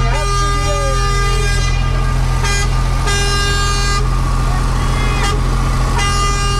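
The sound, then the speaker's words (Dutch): A truck drives past with its horn honking amid a crowd: a loud, steady engine rumble with several horn blasts and voices mixed in. “De truck rijdt in principe gewoon recht voor jullie neus nu.”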